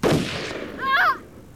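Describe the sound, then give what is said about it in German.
A single pistol shot fired during a tense armed standoff: a sharp, loud crack at the very start that decays quickly into a short tail. “Nimm die Pistole runter. Noch ein Schritt und du bist tot. Hör mal, Sholmes. Keine Bewegung, Lupin. Oder ich schieße.”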